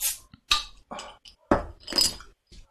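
Glassy clinks and clatter as a bottle of 3.3% brewery beer with 40% fewer calories is opened, a string of several short, bright bursts separated by brief gaps, moderately loud with no voices.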